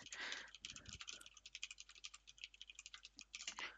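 Rapid soft tapping as someone types a message on Telegram, many quick irregular clicks, faint overall, with a couple of louder rustling bursts at the start and end.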